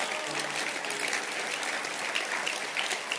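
Conference audience clapping hands in steady, dense applause with an even crackle of many claps, fairly faint and with no voice over it.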